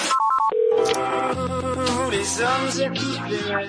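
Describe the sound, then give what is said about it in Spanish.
An answering machine starts playing back new messages. A few quick electronic beeps are followed by a steady, melodic electronic jingle that holds at an even loudness throughout. “Este es el delatador automático de la noche de COPE. Tiene no sé cuántos mensajes nuevos.”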